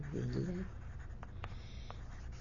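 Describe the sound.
Pen writing down the name of a town: faint scratching strokes on paper, quiet and intermittent, after a voice speaks briefly at the start.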